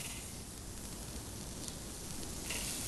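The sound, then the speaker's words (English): Well-seasoned, loosely formed burger patties sizzling on a grill: a constant, dense hiss with no pauses that holds steady throughout. “We're going to put our nicely, loosely formed, well-seasoned patties on the grill.”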